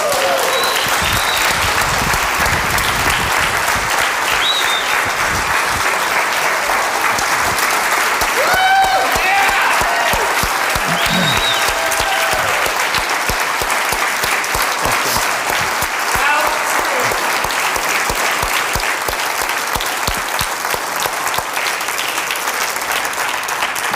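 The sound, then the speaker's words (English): An audience applauds a speaker at a talk with long, steady clapping that stays dense and even for about twenty-four seconds, with no clear pauses or swells. “Y'all give David a hand.”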